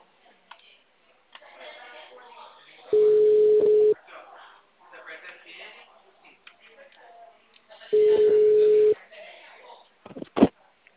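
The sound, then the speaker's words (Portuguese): An outgoing telephone call produces a ringback tone: two long, steady beeps, each about a second, separated by a pause. Faint talk sits in between, and a sharp click follows. “Tá chamando, na verdade.”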